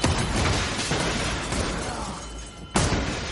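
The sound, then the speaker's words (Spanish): Gunshots and shattering glass as surveillance screens are shot in an action film: a loud, dense crash of noise that dips briefly, then a sharp new burst near the end. “Don dispara las pantallas del ojo de Dios.”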